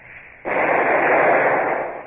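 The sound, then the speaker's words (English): Single cannon shot from a ship's number two gun, fired across the bows of another vessel at sea: after a faint hiss, a sudden loud burst of rushing noise swells, holds, and slowly trails off. “We'll fire a shot across her bows. Number two gun. A single shot across the bows. Fire!”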